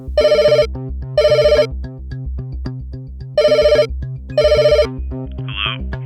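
A telephone ringtone announces an incoming call: four loud, bright electronic ringing bursts at a regular, evenly spaced rhythm, each cut off cleanly, with no talking.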